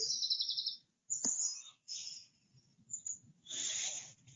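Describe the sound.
Small birds chirp in several quick, high bursts among tree branches in a breeze, faint and separated by brief pauses.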